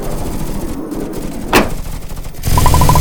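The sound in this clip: A sharp gunshot crack rings out amid dense, continuous noise in an action scene where several shots are fired.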